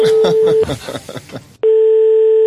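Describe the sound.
Telephone tone on a call to a police station: a steady tone sounds, breaks off while a person speaks briefly, then resumes alone, loud and unwavering.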